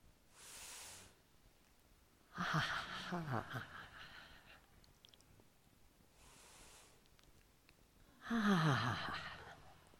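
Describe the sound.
Slow, relaxing breaths with audible exhalations during a guided session: two cycles of a soft, airy inhale followed by a louder, voiced sighing exhale, quiet overall with pauses between.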